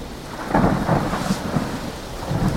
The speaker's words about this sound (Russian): за окнами бушует непогода. Мэг обеспокоенно смотрит на ливень